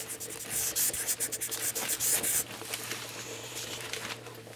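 An older brother drawing makes scratchy rubbing and quick stroke sounds. They are busier and denser at first, then thin out to fainter, sparser scratches.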